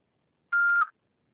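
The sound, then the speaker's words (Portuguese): An answering machine beep: a single steady electronic tone, mid-high in pitch, lasting under half a second and dipping slightly just before it cuts off, with silence around it. “Após o sinal, fale o seu nome e deixe seu recado.”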